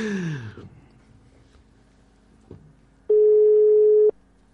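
A single steady ringing tone from a telephone call being placed. It is one flat electronic ring of about a second, rising clearly above a quiet background after some faint, indistinct sounds.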